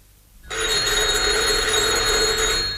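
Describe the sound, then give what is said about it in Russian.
A telephone rings in a newspaper office, a bright, continuous electric bell that starts abruptly after a brief silence and keeps sounding loudly, alone, to the end. “На следующий день в редакцию позвонила энергичная подруга Нади.”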